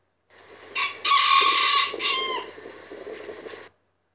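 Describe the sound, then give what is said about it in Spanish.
A rooster crows once in a long, loud call: a short opening note, a strong sustained middle, then a lower, fading tail that ends in silence. No voices are heard. “Y el gallo dijo:”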